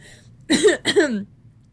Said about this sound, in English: excuse me, I'm choking.